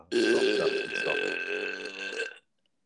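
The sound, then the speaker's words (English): A single long, drawn-out burp rumbles on for over two seconds at a steady, loud level, then cuts off abruptly into silence. “I just think that burp should just like, we should end the show on that burp and just have it echo”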